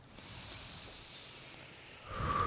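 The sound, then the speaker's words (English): A slow, soft exhale after a deep breath: a faint, breathy hiss drawn out over about two seconds. “Take a breath in. Not a stressed one. A real one. And let it out slowly.”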